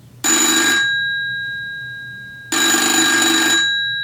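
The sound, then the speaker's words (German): A FeTAp 611 telephone bell rings twice, each loud, bright metallic trill lasting about a second, with a gap of silence between the two rings. “kann da mal jetzt jemand rangehen, bitte? Mann. Ab dem vierten Klingeln macht's mich wirklich aggressiv.”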